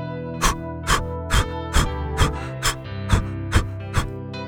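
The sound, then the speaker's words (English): Breath of fire: nine forceful, rapid exhalations are pushed hard from the lungs in an even, quick rhythm, each a short, breathy whoosh over a steady sustained tone underneath. “press the air out of your lungs hard and fast. It sounds like this.”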